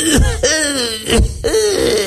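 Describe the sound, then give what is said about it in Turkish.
A man's voice imitates the cough of an old, sick 75-year-old heavy smoker who drinks alcohol, producing a few rough, phlegmy hacking coughs and throat-clearing rasps. “yaşlı, hasta, çok sigara içen, alkol kullanan 75 yaşında adam öksürüğü yapayım mı?”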